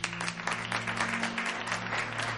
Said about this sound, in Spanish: Y ahora creo que deberíamos honrar a Davo con un merecido aplauso. Así.